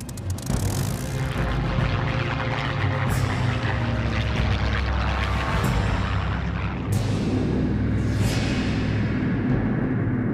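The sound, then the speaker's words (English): Propeller aircraft engines drone overhead during a 1940 air battle over southern England. The low rumble is loud and continuous, with layered engine hum and a few sharp high bursts cutting through it. “The skies above southern England are filled with aircraft and the sounds of battle.”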